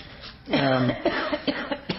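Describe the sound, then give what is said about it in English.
Coughing: a voiced, rasping throat sound gives way to a run of short, sharp coughs, several quick bursts with brief gaps between them. “Can't think of them without coughing.”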